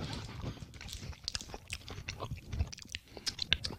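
Chewing a KitKat chocolate bar makes faint, irregular crunching and chomping, with many small bites and mouth noises in a quiet stretch.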